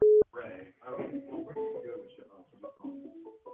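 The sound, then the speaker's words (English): A short, steady telephone beep sounds as a caller's line connects on a live radio call-in show, followed by voices talking. “Oh, somebody's calling in. Hang on. Call, you're live.”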